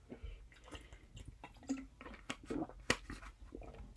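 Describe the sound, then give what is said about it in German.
A quick sip of a drink, heard as faint wet slurping and swallowing with small squishy, dripping clicks spread across a few seconds. “nehme ich mal einmal kurz einen Schluck”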